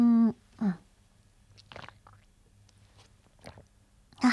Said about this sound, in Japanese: ということで、私もお水をいただきたいと思います。水分取っていきます。皆さんもよかったら一緒に水分取ってくださいね。それではいただきます。